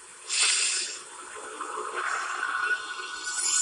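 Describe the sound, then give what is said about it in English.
A man breathes in through his nose and out through his mouth as a relaxation technique. A stronger rush of air comes first, followed by a longer, steady, softer airy hiss. “he literally just inhaled from his nose and exhaled from his mouth.”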